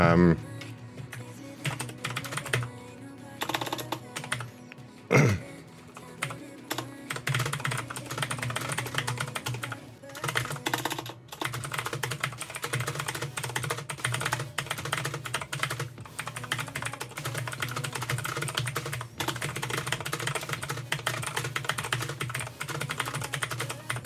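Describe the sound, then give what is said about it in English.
Fast typing on a computer keyboard into a chat: many crisp key clicks in rapid, irregular bursts, with a couple of brief pauses between runs of keystrokes. “I'm going to type something quickly into the private chat here.”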